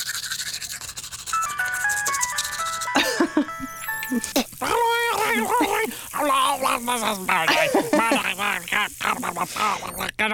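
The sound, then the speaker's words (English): A person vocally imitates a termite brushing its teeth, then answering a ringing phone with a mouthful of frothy toothpaste: stepped warbling tones, then buzzy scrubbing bursts and a long run of garbled, gurgling mouth sounds. “I know that if I want to create the sound of a termite brushing its teeth, but that termite hears the phone ringing and has to answer the phone with a mouthful of frothy toothpaste, it would sound like this.”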